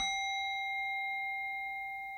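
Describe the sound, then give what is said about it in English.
A meditation bell rung once, its clear ringing tone with several bright overtones sustaining and slowly fading, quiet and alone. “So again, I'll ring the bell, and as you hear the bell, just gently open your eyes”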